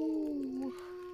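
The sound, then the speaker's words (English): A single drawn-out howl, apparently a person imitating a wolf or dog, held as one steady, fairly loud tone that wavers toward the end. “I needed that. I needed the howl.”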